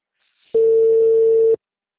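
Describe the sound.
A mobile phone call tone on a borrowed cellphone, a single steady electronic beep at one unchanging pitch lasting about a second, loud and alone, with silence before and after.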